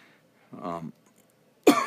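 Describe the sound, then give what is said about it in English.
A morning coffee cough: a brief throaty voiced sound comes first, then after a pause one abrupt, loud, harsh cough bursts out near the end. “excuse me. What's going on here? That is not COVID. That is what you call a morning coffee cough.”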